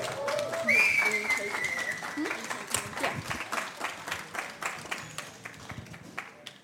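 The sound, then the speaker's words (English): Audience applause greets a performer at a live Halloween special show at MediaCity. Voices sound over the clapping early on, and the applause then settles into a more rhythmic pattern that slowly tapers. “Returning to the stage following some success in our previous sort of lives, we have John to come and perform a few songs for us. Put your hands together.”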